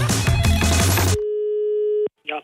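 A steady telephone line tone sounds as a call is placed: one held, mid-pitched tone of about a second follows a loud, dense passage and cuts off abruptly, then a brief short burst of sound.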